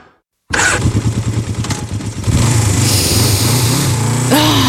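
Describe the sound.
A motorcycle engine bursts into life after a moment of silence, throbbing in an uneven, pulsing idle, then revving into a louder, steady roar whose pitch climbs briefly near the end.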